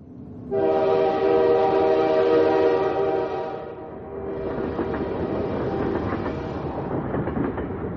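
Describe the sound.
A speeding train sounds a long, loud, steady horn blast, which gives way to a continuous rattling, clattering rumble of wheels on track.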